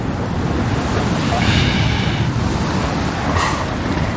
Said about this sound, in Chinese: 再往西去，莫纳赫群岛同样承受着狂风的冲击，